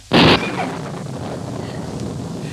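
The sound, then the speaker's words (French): Thunder from a storm closing in over a town at night: one sharp, loud crack, then a steady, rushing, wind-like roar. “L'orage vient. La ville en est presque couverte.”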